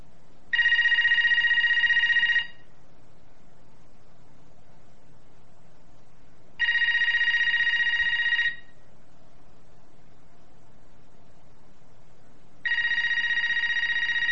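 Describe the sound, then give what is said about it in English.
A telephone ringing at night, three identical bright, buzzy ring bursts of about two seconds each, repeating roughly every six seconds over a faint steady hiss. “sorry about the phone. I didn't turn it off. It usually doesn't ring this time of night. Why don't we just take a few seconds of silence while it rings?”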